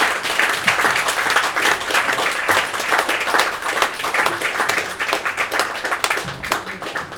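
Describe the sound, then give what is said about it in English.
An audience claps warmly for performers at the end of their set. The applause is loud and dense, swelling and dipping in waves while it holds for several seconds. “Give them a warm applause.”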